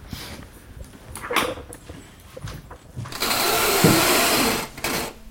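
A sewing machine stitches fabric. Light handling and clicking sounds lead into a loud, steady whirring run of about one and a half seconds, followed by a brief quieter burst.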